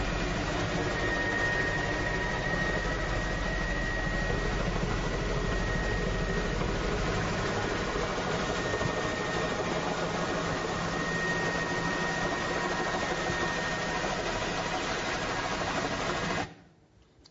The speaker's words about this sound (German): This is landing in Malawi, I guess. Landing in Malawi, it's very short. Landung in Malawi.